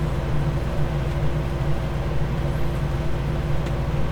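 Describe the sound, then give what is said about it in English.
A giant all-terrain duck vehicle drives in a video game, a steady, even, low engine rumble that continues without a break and without voices. “It can drive in water. It can drive upstairs. Watch out, it's an all-terrain ducky here.”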